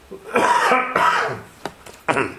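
A few rough, rasping throat clears break the quiet as phlegm is cleared. Two longer, loud bursts come first, then brief clicks and one final short clear.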